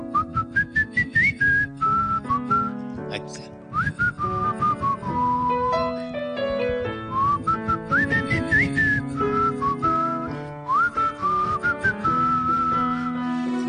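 A folk song tune is whistled as a clear, bright melody with sliding notes. It rides over steadily strummed chords in a lively, even rhythm.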